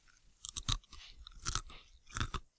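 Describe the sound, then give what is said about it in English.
Crunchy food bitten and chewed with the mouth open, heard as three loud, separate bursts of crisp crunching, each followed by softer chewing, with no talking. “See, is this louder if I bite it with my mouth open?”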